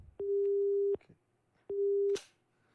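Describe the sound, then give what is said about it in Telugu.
A telephone busy tone follows a radio call-in caller's dropped line: two long, steady mid-pitched beeps separated by a brief gap, each with a small click at its start and end. “Caller line cut అయింది.”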